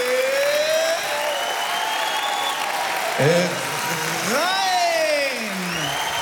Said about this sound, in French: Et ça, c'est le public. Merci beaucoup. Une nouvelle ovation pour Stéphane Escher en direct du studio 104